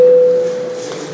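An electronic voting signal sounding in a parliament session: a loud, steady mid-pitched tone over a broad hiss, holding for under a second before the tone cuts off and the hiss slowly eases.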